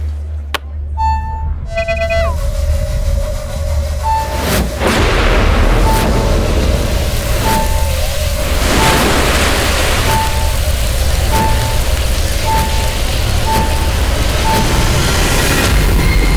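A magical portal opens after a big flashing jewel is pressed: a loud, sustained rumbling drone with booming bursts, and a high beeping chime that repeats at a regular pulse throughout.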